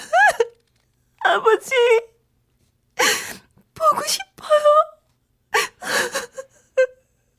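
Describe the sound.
A woman cries alone in a corner of a yard in the wind, with several bursts of wailing, whimpering sobs and hiccuping catches of breath, the high voiced cries wavering in pitch between short silences.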